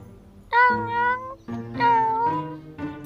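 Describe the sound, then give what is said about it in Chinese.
A cat meows several times in quick succession. The calls are loud, drawn-out and tonal, each holding a fairly steady pitch. “他喵喵叫着把爪子放在我的额头上，轻轻拍了拍。”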